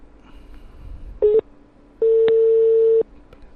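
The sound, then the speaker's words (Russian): Telephone tones while placing a call, a short beep followed by one long, steady tone of about a second, over faint background noise. “Че, наверное, звоню, потому что уже прошло типа время. Набираю.”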